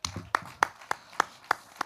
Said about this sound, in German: Nochmal Applaus für Lukas und seine schöne Geschichte.